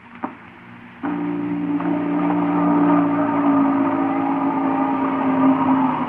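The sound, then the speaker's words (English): Motors of a button-activated machine warming up, buzzing like a short circuit: a small click, then a steady droning hum with whining tones switches on about a second in and holds evenly to the end. “Sounds like motors warming up. Hey, that sounds like a short circuit somewhere.”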